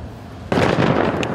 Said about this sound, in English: We are told this is from demining, a controlled blast, yet here everything is fluid.